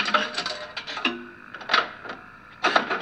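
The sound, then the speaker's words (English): Mechanical clicking and whirring from a jukebox on a sound-effects record, coming in a few short rattling bursts separated by quieter gaps, with no voices. “That's the sound of a jukebox. This is an effects record, isn't it?”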